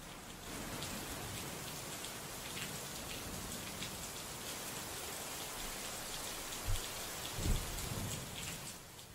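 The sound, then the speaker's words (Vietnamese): Heavy pouring rain falls in Đà Lạt as a dense, steady hiss of countless drops that stays even throughout, with two brief low thumps near the end. “nhìn cơn mưa xối xả, Hoa nghiến răng, bấm bụng mặc áo mưa, bước ra khỏi nhà, hòa mình vào trong màn mưa lạnh lẽo của Đà Lạt.”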